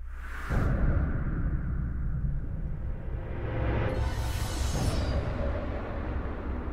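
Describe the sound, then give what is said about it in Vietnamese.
A whooshing sword swing releases a straight beam of sword energy that slashes toward a palanquin in an audio drama. A broad, sustained rush begins after half a second, then swells again near the end. “Thần chú vừa niệm xong, Bảo Sơn vung kiếm lên một cái, một luồng kiếm khí thẳng tắp chém thẳng tới cái kiệu mà thần trùng đang ngồi.”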